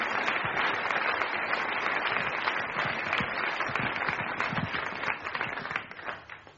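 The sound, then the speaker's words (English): An audience applauds to welcome a professor to speak: dense, sustained clapping that holds steady for most of the stretch, then tapers off near the end. “Put your hand together and welcome the Lord.”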